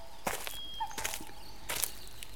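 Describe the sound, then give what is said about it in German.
A man's footsteps move through a fresh forest in the early morning. A few soft, scuffing steps come at a slow, even pace over a quiet background. “Er geht durch den frischen Wald, reibt sich dabei die Hände, bläst auf seine Finger”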